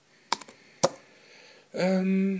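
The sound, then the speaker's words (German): Computer keyboard shortcuts and clicks come as a few sharp, dry taps in quick succession, then a single louder click, followed after a pause by a sustained voiced sound. “Command C. Klick. Command V. Enter, Klick, Markieren, Command C und so weiter.”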